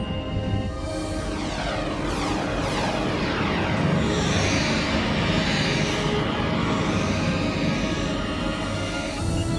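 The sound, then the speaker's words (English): Spaceship thrusters engaging in transit mode on a partial field, a loud, continuous engine-like roar layered with shifting, whining tones that sweep across the sound as it sustains. “Initiate transit mode, 3-axis stabilization. Aye, sir. Engage thrusters.”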